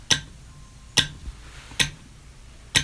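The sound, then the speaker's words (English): A simple telegraph sounder clicks as its metal strip is pulled down onto a magnetized nail: four sharp, bright metallic clicks at an even, unhurried pace, standing out alone against a quiet background. “it creates a circuit, making the nail magnetic and pulling the piece of metal on the sounder down to hit that nail, and that makes the sound that you hear.”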